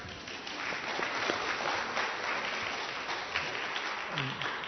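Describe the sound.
A church audience claps for a member's birthday, with steady, even applause throughout and a voice briefly audible near the end.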